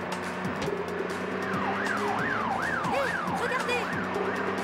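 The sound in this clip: Police siren in a GTA-like driving video game, wailing in repeated rising and falling sweeps that begin after a moment of traffic and engine hum and continue steadily above it.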